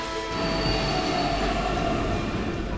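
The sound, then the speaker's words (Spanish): A Lisbon metro train rolls through the underground, a steady loud rumble with a thin metallic squeal from the wheels sustained over the whole stretch. “El cazador de sonidos Helmut von Feller baja al metro de Lisboa. Siempre gusta de conocer cómo suenan las entrañas de las ciudades que visita.”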